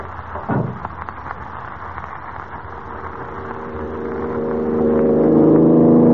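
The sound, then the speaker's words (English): The motor of a big black sedan runs in front of a prison as a low, steady engine hum. It swells louder, with layered droning tones, toward the end, and no voices are heard. “Now, that must be their car in front of the prison. Big black sedan. Motor's running.”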